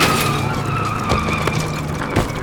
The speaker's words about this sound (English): Cut back to show a view from behind the cars. They're racing full speed towards the lake and dodging junk and bodies.